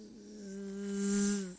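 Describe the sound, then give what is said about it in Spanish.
A mosquito buzzes past the ear at night as a sustained, droning whine that swells louder and then fades, heard alone for under two seconds. “Te va por el oído, te pasa por el oído y pasa... Te pasa si vos decís, pero ¿qué le pasa, señor mosquito?”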